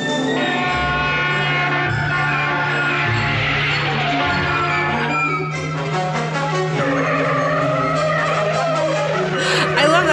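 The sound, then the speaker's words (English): Orchestral film score music for a drunk driving scene holds layered, sustained tones over a steady low drone, loud and continuous, with the texture shifting to busier, shimmering tones in the second half. “I just want to play a little bit of that drunk driving music because it's incredible.”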